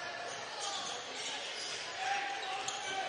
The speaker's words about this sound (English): Lincolnview dribbling the ball out front.